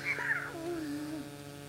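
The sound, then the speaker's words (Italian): A cat that follows a person around like a dog gives one drawn-out meow. It starts high and slides steadily down in pitch, moderately loud and on its own. “Ma guarda questo gatto che ti segue come un cane.”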